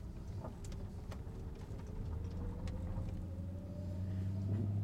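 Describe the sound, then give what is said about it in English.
A car driving, its low engine rumble steady throughout while a faint engine tone climbs slowly in pitch; no voices. “I'm a little busy driving here.”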